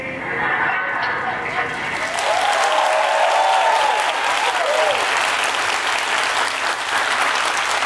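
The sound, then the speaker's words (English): Crowd cheering and applauding, a dense, loud wash of clapping that runs steadily through the whole stretch, with excited voices and whoops rising above it for a few seconds partway through. “Can't believe you cheered for that pilot.”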